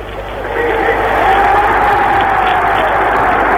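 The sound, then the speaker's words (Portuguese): A Mexican stadium crowd roars in ovation for Pelé after a goal in Brazil versus Czechoslovakia. The sound is muffled and band-limited, and the roar swells after a quieter first half-second, then holds as a steady mass of cheering. “Reparem a ovação do público mexicano para o maior jogador de futebol de todos os tempos.”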